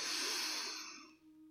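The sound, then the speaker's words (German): A deep breath drawn in, a soft airy rush that is strongest at the start and gradually fades over about a second, with no talk. “Atme dazu tief ein.”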